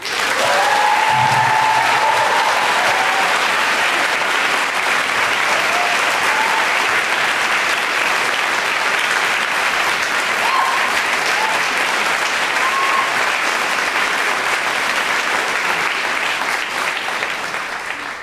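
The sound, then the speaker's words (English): Loud, continuous applause from a Writers' Symposium audience welcoming poet Nikki Giovanni, a dense, steady wash of clapping that lasts throughout with little change in intensity. “Would you give a Writers' Symposium welcome to Nikki Giovanni?”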